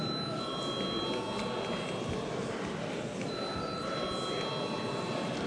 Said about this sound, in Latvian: Lūdzu zvanu.